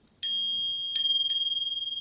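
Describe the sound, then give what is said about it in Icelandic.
A small bell, rung to end a yoga nidra practice, gives three bright metallic strikes, the last one softer. Its clear ringing tone lingers with a gently pulsing shimmer after each strike. “Þegar Jóga Nidra iðkunin lokið þá mun ég hringja þessari bjöllu.”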